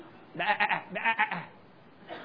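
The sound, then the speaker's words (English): Sheep bleating: a wavering, harmonic cry in two close bursts, then a brief faint sound near the end. “You know, a sheep can actually sit on its back and have difficulty flipping over like a turtle. Get that image in your mind. That little sheep just sticking its hands up there.”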